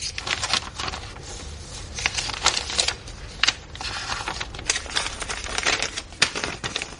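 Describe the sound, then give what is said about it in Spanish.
Papers rummaged through at a desk: many quick, crisp rustles, flicks and clattering clicks in an irregular, busy pattern, moderately loud and without talk. “Rebusca entre los papeles de un escritorio.”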